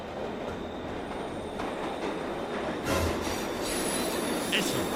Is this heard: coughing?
no